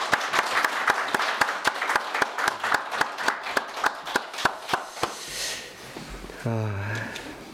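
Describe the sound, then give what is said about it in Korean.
Congregation applause welcoming a visiting missionary during a church worship service: steady, evenly spaced clapping in a brisk rhythm for about five seconds, then it dies away and a voice begins speaking. “우리 박수로 한번 환영합니다.”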